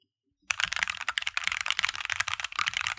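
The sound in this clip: A clicky computer keyboard is typed on in a fast, steady stream of sharp, bright key clicks that runs unbroken to the end.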